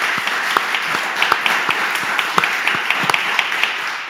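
Applause from a large audience at a French live event, a dense, steady wash of many hands clapping for about four seconds with scattered sharper claps standing out.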